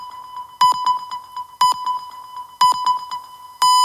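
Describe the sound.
Hourly time-signal pips on a Spanish radio station mark five o'clock, four in the Canary Islands. Four high, pure beeps fall about a second apart, and the last is held longer, over a faint steady pulsing.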